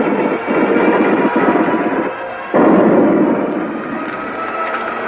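Battle noise of gunfire and an explosion: a dense, loud roar with a few sharp cracks, a brief dip, then a sudden heavy blast that slowly fades away.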